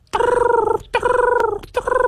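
Sandhill crane calls from these large birds, which fly over in huge flocks in the fall. Three loud, rolling, harmonic calls come in quick succession, and the last is cut short.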